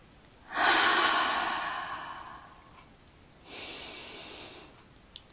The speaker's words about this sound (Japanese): 一息深呼吸